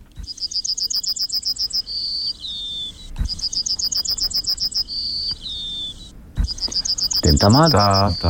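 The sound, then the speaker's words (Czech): Yellowhammer song recorded in Vyžina, Beroun region: three phrases, each a rapid string of short, high, buzzy notes ending in a longer drawn-out note, over low background noise, with a voice coming in at the very end. “teď vám pustíme ukázku, jak zpívá strnad z Vyžiny, konkrétně z obce na Berounsku.”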